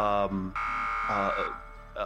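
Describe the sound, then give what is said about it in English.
An alarm buzzer signals the end of a safety drill on a ship: a loud, harsh, harmonic buzzing tone that holds steady for about two seconds, with brief dips in level. “an alarm sound kind of signifying the end of the drill.”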